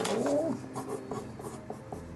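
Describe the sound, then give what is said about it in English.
A pen scratching on paper as a note is written down: a few quick scribbled strokes, brighter at the start and then softer and intermittent, with no talk. “let me write this down for you.”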